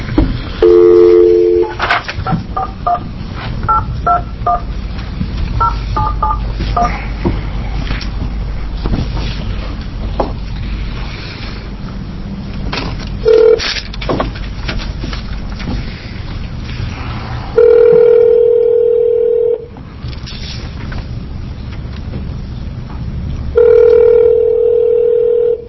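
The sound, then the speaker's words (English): Telephone touch-tone keypad beeps dialing out to reach a representative during a committee hearing on workplace safety, a quick run of paired tones followed by a few longer steady ringing tones on a thin, narrowband phone line. “I'm going to reopen the informational hearing on this issue, safety in the workplace, and we're going to call Representative Esquivel, see if he has a comment to make.”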